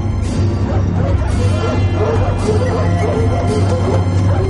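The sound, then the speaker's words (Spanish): Dogs run through a forest, barking and yipping in a busy, loud, continuous stream of overlapping calls. “Dos perros corren por el bosque.”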